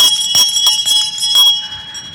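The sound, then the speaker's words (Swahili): Metallic bell strikes at a formal ceremony before a president: a few clanging hits with a bright, sustained high ring that carries through between strikes, then fades at the end. “Kengele ya kwanza mheshimiwa rais. Kengele ya pili mheshimiwa rais. Kengele ya tatu.”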